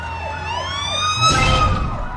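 A police car siren in a video game wails in quick, repeated up-and-down sweeps. A louder, rumbling noise swells in partway through.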